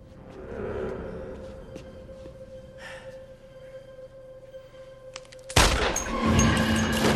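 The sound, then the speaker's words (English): A single pistol shot rings out as a gunman fires at a guard during a hostage holdup: a loud, sharp crack bursts out of a quiet, humming background and leaves a rough wash of noise behind it. “The ringleader prowls menacingly around them, pistol in hand. He shoots a guard at random.”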